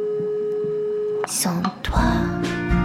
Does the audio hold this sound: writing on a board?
no